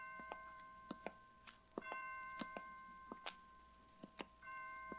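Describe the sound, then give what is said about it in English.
Hospital clock chimes strike at five o'clock: many faint, clear bell-like tones ring out one after another in a fairly even rhythm over quiet background hiss. “Well, 5 o'clock. I didn't know the hospital had chimes.”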